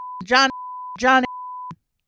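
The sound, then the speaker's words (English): A steady, high-pitched censor bleep tone runs for about a second and a half, broken twice by brief snatches of voice before it cuts off. “Every time we bleep, it costs money on here.”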